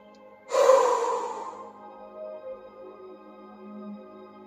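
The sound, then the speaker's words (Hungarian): A deep, audible breath is drawn and released during a guided relaxation exercise. The airy rush swells suddenly, then fades slowly over soft sustained music tones. “Vegyél egy mély levegőt, és kilégzésre engedj ki még minden feszültséget, ami maradt a testedben.”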